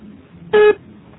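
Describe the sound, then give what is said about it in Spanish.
A voicemail beep sounds before a message is left: one short, steady mid-pitched tone lasting about a fifth of a second, alone over faint background noise. “Deja tu mensaje después del beep.”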